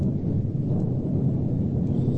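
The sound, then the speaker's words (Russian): Thunder rolls in a storm, a deep continuous rumble that holds steady and fairly loud for about two seconds, with no other sound over it. “черное небо, гром, дождь, молния полосует все небо, а тут”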